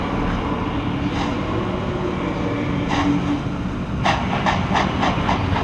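A train waits at a station one minute before departure, giving off a steady low rumble with a hiss. Near the end, a quick run of sharp metallic clicks and clanks sounds. No voices are heard.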